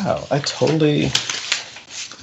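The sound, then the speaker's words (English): Sheets of paper rustle and crinkle in a few short, crisp bursts, with a voice heard briefly near the start. “apologies for the sound of the papers”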